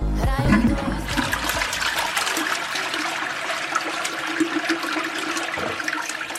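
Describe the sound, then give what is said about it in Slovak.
A toilet flushing loudly, opening with a strong low surge of rushing water and then settling into a steady hissing trickle as the water runs on to the end. “Je čas spláchnuť.”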